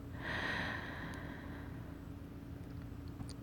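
A deep breath drawn in, heard as a single soft, airy inhale lasting about a second and a half before fading into faint, steady background noise.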